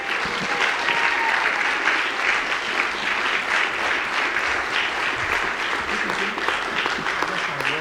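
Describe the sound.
Church audience applauding to welcome a pastor to the pulpit: a dense, steady wash of many hands clapping that stays loud and even for the whole stretch, with no voices standing out above it.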